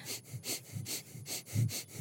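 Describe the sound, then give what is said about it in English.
Rapid, rhythmic nasal breaths of breath-of-fire breathing through the nose. The short, sharp sniffing exhalations repeat at a quick even pace throughout, with no talking. “You're breathing through your nose. You're breathing with your navel. Yes, a breath of fire.”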